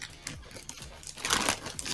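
Gift wrapping paper crinkles and crunches as a present is opened, a continuous crackling rustle that swells louder toward the end.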